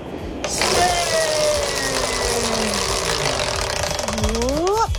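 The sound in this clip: A prize wheel spins during a quiz game, giving a loud, continuous rattle of rapid clicks heard along with other sounds.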